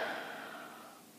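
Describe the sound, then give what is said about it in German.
A slow, deep breath during a guided relaxation exercise: one long, airy whoosh that starts strongest and fades gradually over about a second, with no voices. “Und dazu schließe deine Augen, wenn du möchtest, und atme tief ein und tief aus.”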